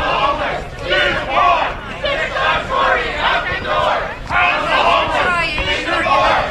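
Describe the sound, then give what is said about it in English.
Protesters chant loudly in city council chambers, a crowd of voices rising and falling in steady waves that continue without a break. “You can hear you can hear some of the chanting here, Alex.”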